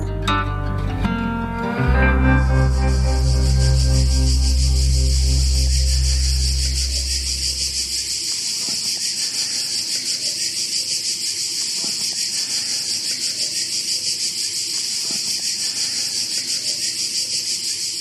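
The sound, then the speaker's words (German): Cicadas chirping outdoors at night in the mountains, a dense, steady high buzzing chorus that runs the whole way through; music plays at the start and fades out within the first half, leaving the insects alone. “Ihr hört die Zirkaden hier bei der Rockantenne Late Night Show.”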